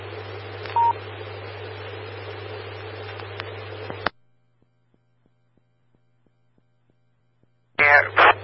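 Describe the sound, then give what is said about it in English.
Telephone-style dialing tones sent over a radio channel during a storm-warning call. A brief beep and a few faint tone blips sit in loud hissing static over a low hum, then the sound cuts to silence before a short noisy burst returns. “I will give him a ring right now.”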